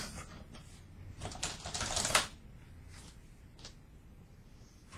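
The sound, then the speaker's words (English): Keystrokes on a computer keyboard as a password is typed, a dense run of quick clicking taps for about two seconds, followed by a few sparse, softer presses. “So I can't end the podcast because my screensaver kicked in and I didn't type my password right. But if I type it 3 times, it'll probably give me a hint.”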